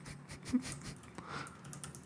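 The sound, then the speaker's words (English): Typing on a computer keyboard: faint, irregular clicks of keys being struck, with a few louder taps among them and no clear speech. “I can't find it on my computer, so I'm just going to start typing.”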